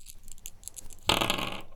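Dice rolled during a game: a sudden clattering rattle starts about halfway through and runs for roughly half a second before stopping, after a quieter opening stretch.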